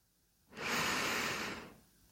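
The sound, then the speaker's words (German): A single deep inhalation during a guided breathing exercise: a soft, airy rush of breath that swells quickly, holds for about a second, then fades, heard alone without talk. “Und jetzt atme tief ein in dein Herz.”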